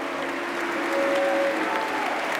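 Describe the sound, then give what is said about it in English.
Applause from a male audience in matching shirts in a Missouri Boys State chamber as the governor walks to the stage: dense, steady clapping that fills the whole clip without a break. “Flanked by his teammates, the governor of Boys State makes his way to the stage between the applauding male audience who dress in matching Missouri Girls and Boys State shirts.”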